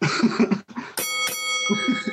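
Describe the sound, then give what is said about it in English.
A bell dings twice in quick succession to signal time running out in a debate. The bright, ringing strikes are followed by a long shimmering decay between stretches of talking. “I thought the bell went off.”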